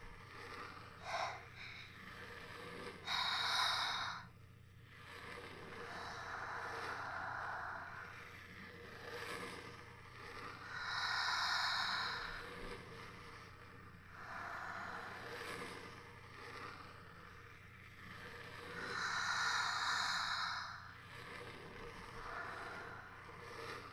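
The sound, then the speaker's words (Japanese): Deep breathing by people breathing together before a spirit-summoning game: a few slow, loud, hissing breaths spaced several seconds apart over a faint steady background. “一緒に深呼吸してくれる？”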